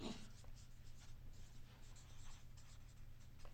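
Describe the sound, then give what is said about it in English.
Handwriting scratches faintly across a surface in irregular strokes and short bursts, over a steady low hum. “Don't know how legibly I'm writing this”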